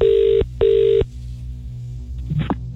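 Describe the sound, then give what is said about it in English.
Two ringback tones on an outgoing telephone call: each is a steady, loud buzzing burst of just under half a second, with a short gap between them, followed by quieter low background sound. “We're going to call someone up, okay. Answer the phone, say hello.”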